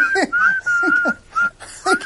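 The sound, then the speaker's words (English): A person whistles a tune as backing music for highlights of dogs, a clear, steady whistled melody of sustained notes with short breaks between phrases. “So we got someone whistling.”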